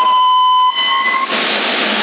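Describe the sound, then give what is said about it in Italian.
Electronic beep on a CB radio tuned to 27 MHz in Sassari: a steady tone with a fainter higher overtone, followed by a loud wash of radio static hiss. “No, c'è il bip.”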